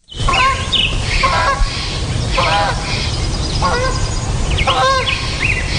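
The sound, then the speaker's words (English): Honking of a goose flying overhead in the morning: several loud, nasal honks come at irregular intervals over a steady background hiss. “That was a goose flying overhead in the morning, and you can hear the other birds in the background.”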